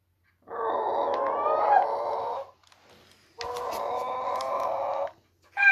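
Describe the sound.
A person imitates a chicken with two long, loud, strained squawking calls separated by a short pause, and a third begins as the sound cuts off.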